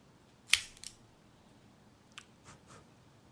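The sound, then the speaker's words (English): A guillotine Cassetti cutter snips a Romeo y Julieta 1875 Nicaraguan cigar: one sharp, crisp cut, then a couple of softer clicks, then a few faint clicks from the cutter against a quiet background. “So I am going to use the guillotine part of the Cassetti cutter.”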